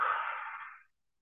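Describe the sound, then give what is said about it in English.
A single deep breath exhaled during a guided relaxation exercise: a soft, airy rush that lasts under a second and fades out, heard alone with no talk. “One deep breath.”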